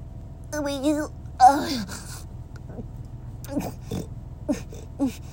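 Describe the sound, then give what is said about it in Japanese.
Pigs grunt and oink, opening with a few drawn-out, wavering squeals and following with several short, scattered snorts. “もう豚見て、ね、豚、いっぱい泣くから”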